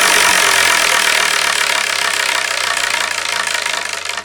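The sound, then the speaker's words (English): A spinning prize wheel makes a loud, dense rattling clatter that carries on steadily, then thins into more separate ticks toward the end as the spin slows. “Let's spin and see what we're going to review.”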